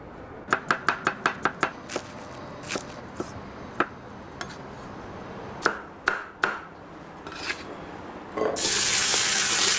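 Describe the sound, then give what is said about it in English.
A large cleaver chopping vegetables on a wooden board: a quick run of seven sharp knocks, then slower scattered chops, followed by a steady rush of running tap water at the end. “The shopkeeper chops vegetables on a wooden board with a large cleaver.”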